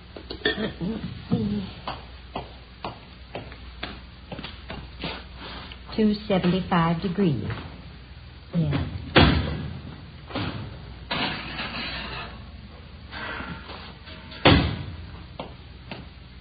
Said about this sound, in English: Excuse me, I've got to get this meringue in the oven.